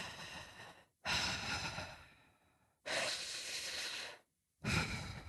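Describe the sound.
A person breathes deeply through the lungs in a few long, airy rushes, each breath a noisy surge of air separated by brief silences, heard alone without talk.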